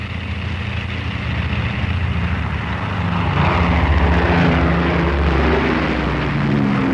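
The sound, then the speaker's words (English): A four-engine Shackleton propeller aircraft takes off from an airfield and climbs away, a steady heavy droning roar with a low humming engine tone that swells a little louder partway through and stays strong. “And very soon the aircraft is flying high above the white wasteland that stretches in one vast unbroken sweep from horizon to horizon.”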